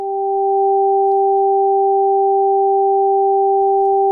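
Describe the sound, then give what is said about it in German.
Two pure sine tones an octave apart sound together as a steady, loud pair for about four seconds, in a headphone demonstration where the tones alternate between the left and right ears. “Zwei Töne im Abstand einer Oktave, abwechselnd links und rechts.”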